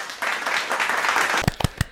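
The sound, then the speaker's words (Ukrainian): Applause sound effect for an edited recording: a dense wash of clapping for about two seconds, ending in a few sharper, louder individual claps. “Владіко, тут оплески отак от ставити.”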